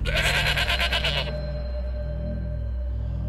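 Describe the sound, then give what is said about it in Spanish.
A goat bleats and cries out: a loud, harsh, rapidly pulsing bleat lasting about a second, followed by a low steady hum and faint rumbling. “escuchó un chivo quejándose, gritando.”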